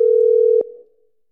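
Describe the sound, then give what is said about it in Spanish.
A telephone dial tone sounds while a call is being placed: a steady single-pitched beep held loudly for just over half a second, then cut off by a click and a brief fading tail. “Estoy llamando a la regidora Gladys Yané. No me contesta.”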